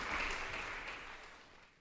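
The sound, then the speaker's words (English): Audience applause for seven musicians after a piano honors recital at Dendrino's Chapel, during Interlaken Arts Academy's annual festival: a dense, steady wash of clapping that gradually fades as it goes on. “And lots of applause for all seven musicians on stage.”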